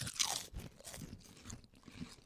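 A bite into a crunchy Utz Mike's Hot Honey potato chip gives a sharp, loud crunch, followed by a few softer, uneven crunching chews.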